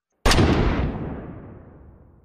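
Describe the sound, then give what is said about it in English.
A single rifle gunshot during a hillside manhunt hits as a sudden, loud, sharp crack, then a broad rumbling tail decays steadily for about two seconds. No voices are heard. “I wish those other fools would stop shooting, too.”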